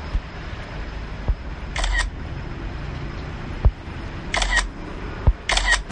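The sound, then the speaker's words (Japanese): Three crisp camera shutter clicks as a photo is taken of a taut power line, the first standing alone and the last two closer together, each over a low thump and steady background hiss. “ちょっと一応写真撮っとくかな、これ、うん、録音中に写真撮れるのかな”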